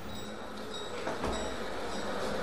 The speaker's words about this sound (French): Là on est sur un boulevard parisien, en juillet 1886, on se dirige vers la gare, donc on entend finalement la vapeur des trains.